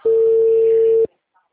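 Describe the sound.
A telephone tone sounds as a single steady pitch for about one second and then stops abruptly, leaving near silence.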